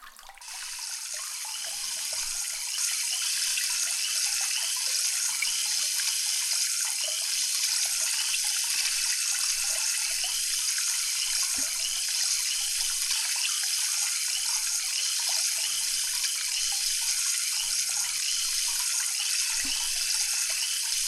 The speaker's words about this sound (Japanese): このまま洗い流してまいりますので、目を開けないようにお願いいたしますね。